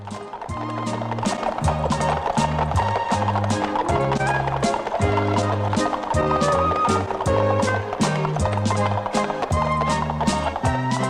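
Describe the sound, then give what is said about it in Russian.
Brisk, steady clip-clop of hooves as a carriage drawn by four horses moves along a street, a dense, even rhythm of sharp knocks running throughout. “Карета, запряженная 4 лошадей, едет по улице.”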